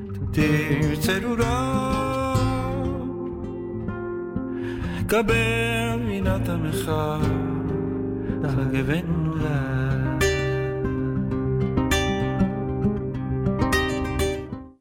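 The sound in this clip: Instrumental music from a performer known for jazz and flamenco shows, with sustained tones and sharp plucked accents, played loud and steady throughout before a quick fade at the very end.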